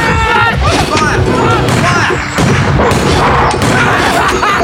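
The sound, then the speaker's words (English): Gunfire with bullets, shots at an attacker that seem to have no effect: a few heavy thudding bangs cut through loud, frantic shouting voices throughout. “Fire! The bullets have no effect!”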